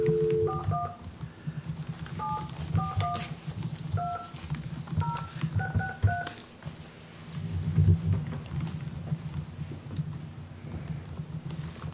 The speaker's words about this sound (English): I'm not dialing fast enough.